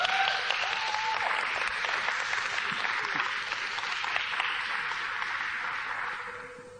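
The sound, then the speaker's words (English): Audience applause welcoming a guest speaker at a church service: sustained, dense clapping at a steady level that softens slightly toward the end. “Let's give Prince a big hand.”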